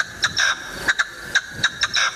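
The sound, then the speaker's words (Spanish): Partridge calling in a rhythmic series of short, harsh, high-pitched notes, some coming in quick pairs, repeating several times over a faint background with no voices. “Una perdiz. La perdiz. Eso es una perdiz. Es una perdiz.”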